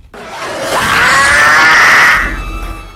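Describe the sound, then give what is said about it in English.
An alien creature in labor screams in pain: a single drawn-out, harsh shriek that swells to a loud peak, holds for about a second, then fades away. “Somewhere up ahead, alien Syl is in labor.”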